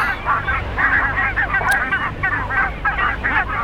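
Goose honking: many nasal honks repeat and overlap in a steady chorus, with a brief high click midway.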